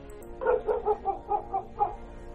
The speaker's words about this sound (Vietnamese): lúc này vang lên tiếng chó sủa. Tiếng chó sủa rất dữ dội, nghe mà sốt cả ruột.